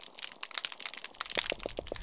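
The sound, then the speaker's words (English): Snapping shrimp crackle underwater in dense, sharp, irregular clicks, recorded by a hydrophone on a new oyster reef, with several soft low thumps from drum or croaker fish pulsing near the end. “So what you're hearing are snapping shrimp. And then that thumping you heard in the background is probably a type of cyanid fish, like a drum or a croaker.”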